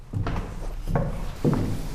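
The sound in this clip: Dull footsteps climb stairs up to the main roof truss of the Vyšehrad chapter church, where workers are busy above the organ between the towers; a few slow, heavy footfalls thud at uneven intervals.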